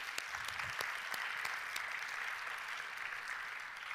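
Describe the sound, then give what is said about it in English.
A church audience applauds its volunteers, including ushers, welcomers and the praise team. Soft, steady clapping with scattered sharper claps continues at an even, fairly faint level for four seconds. “Like, we have ushers, we have welcoming, we have praise team, we have so many people. Can we just give them a hand just to thank them?”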